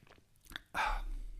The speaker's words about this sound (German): Ich nehme kurz einen Schluck.